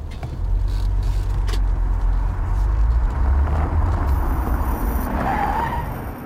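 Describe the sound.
A car skidding while nearly hitting the side of another car at a parking space: a sustained hiss of tires over a low engine rumble, with a brief, faint squeal near the end.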